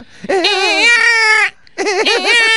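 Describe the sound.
A child crying in two long wailing bursts with a brief pause between, the high voice wavering up and down, loud and insistent, while someone is tuning an instrument.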